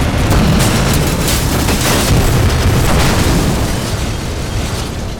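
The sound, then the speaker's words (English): A battleship explodes beside a Martian war machine in a massive, loud, sustained roar with deep rumbling that stays heavy throughout and eases slightly toward the end. “the force of the explosion destroyed the second Martian”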